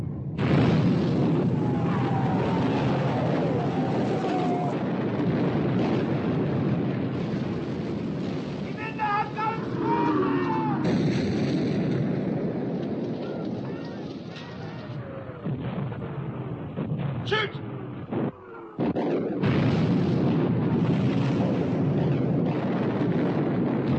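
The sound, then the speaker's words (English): Naval gunfire in a sea battle between warships: a dense, continuous roar of artillery and explosions, with a few brief whistling tones in it and a sudden short drop near the end. “Fire! Shoot! She's hit. Good shooting, Captain. Shoot!”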